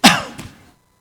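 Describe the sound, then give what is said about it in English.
Throat clearing set off by a tickle in the throat: one harsh, loud burst, then a softer rasp that trails away into silence. “there's just that tickle in the back of your throat that every once in a while, it makes you,”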